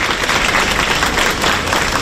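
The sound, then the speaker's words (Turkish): Families who had waited for hours applaud university exam candidates as they leave, a loud, dense clatter of many hands clapping that stays continuous throughout. “Saatlerce bekleyen aileler adayları alkışlarla karşıladı.”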